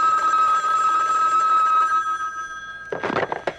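Telephone ringing in a busy office scene: a loud sustained electronic ring holds, then fades, and a few short choppy rattling bursts follow near the end, with no talk.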